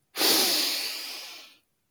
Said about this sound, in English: Inhale deeply through your nose, importantly, for a count of four.